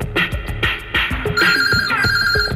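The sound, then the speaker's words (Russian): A mobile phone rings with a loud electronic ringtone, a bright melodic pattern of short tones that repeats steadily throughout. “Вдруг у Маргариты затрезвонил мобильный.”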